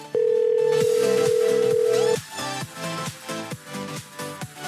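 Telephone ringback tone on an unanswered call, a single long steady beep of about two seconds, then music takes over.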